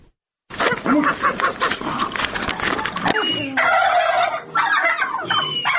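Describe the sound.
A turkey gobbles in a village farmyard in Khoze, Lagodekhi municipality, on an early morning. Loud, repeated rattling gobbles run throughout.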